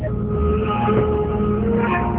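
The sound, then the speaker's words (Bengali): Steady engine hum of a car as a journey gets under way, a continuous low drone with a faint tonal whine, even in level throughout. “তুই আপাতত গাড়িতে উঠ। ওকে চল রওনা দি।”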